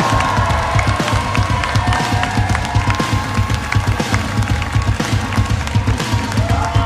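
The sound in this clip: Audience cheering and applauding as a comedian comes on stage. Dense, sustained clapping runs throughout, mixed with whoops and shouts, loud and unbroken.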